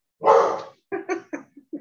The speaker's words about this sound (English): she's got a hound bark. Mm-hmm. This real high pitched bark.